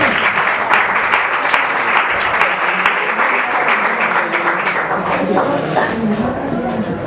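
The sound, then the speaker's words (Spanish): Audience applause: dense, sustained clapping holds at a steady loud level throughout, and a voice rises over it in the final seconds. “Un aplauso a Ulises.”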